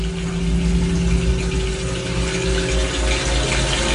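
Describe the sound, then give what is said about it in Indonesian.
Water runs from a tap in a steady, rushing hiss that holds at an even level without a break, with a low hum beneath it. “Dan tiba-tiba ada yang menyalakan keran.”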